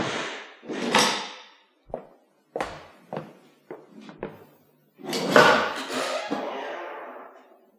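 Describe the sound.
A door is shut and locked: several sharp wooden clunks and knocks follow one another, then a longer scraping rattle and a final thud.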